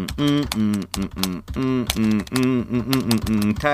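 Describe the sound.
Computer keyboard typing as a USPS tracking number is entered. Quick, crisp keystroke clicks in short bursts over a continuous tonal background sound.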